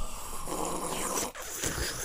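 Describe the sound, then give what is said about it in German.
Bubbling of a bong water pipe: a continuous, rough gurgling noise of fairly even loudness, broken by one brief gap midway. “das war übrigens kein Tee, das war die Bong.”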